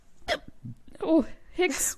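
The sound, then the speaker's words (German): A hiccup, a sudden, short vocal catch set among a person's talking. “Hicks.”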